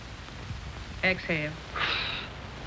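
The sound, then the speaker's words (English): A person draws one deep, breathy inhale as part of a breathing exercise, a soft airy rush lasting about half a second that comes right after a brief voiced sound, over a quiet background. “Inhale. Exhale. Inhale. Exhale. Inhale.”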